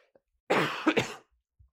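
Coughing from someone with a piece of corn stuck in their throat: one short, harsh burst with a couple of sharp peaks, heard alone with silence around it.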